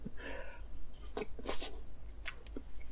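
Shirokuma shaved ice being eaten, giving a few short, faint crunchy scraping bursts separated by quiet gaps.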